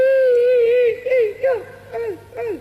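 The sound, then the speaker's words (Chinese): A voice imitates a woman crying, starting with a long wavering wail and then breaking into a few short sobs with falling pitch glides. “哦，这也是哭， 这就是哭”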